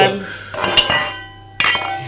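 Glasses clink together in a toast: a few bright, ringing clinks come in two bursts, separated by a quieter pause.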